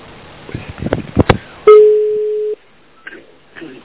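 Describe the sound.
Telephone line tone while calling a friend: brief talk, then a single loud, steady mid-pitched tone lasting under a second that cuts off sharply, followed by a few faint sounds.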